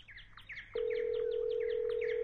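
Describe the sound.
A telephone line sounds a steady single-pitch tone while calling a mobile phone. The tone starts after a brief pause and holds unbroken, with repeated bird chirps in the background.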